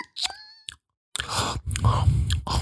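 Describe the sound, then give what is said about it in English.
A voice imitates loud, wet chewing while eating, with short smacking and crunching bursts that resume after a brief silent pause. “Emma has a bit of an annoying eating habit. You know, like the ASMR videos. Like, does she? That's what it sounds like in my head, though, all the time.”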